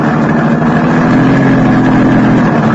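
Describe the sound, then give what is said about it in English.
A car engine running while driving onto the charred ruins of a burned paint factory, a loud, steady, unbroken low drone with no other sounds. “I drove onto the charred ruins that had once been the Chantilly Murdoch paint factory”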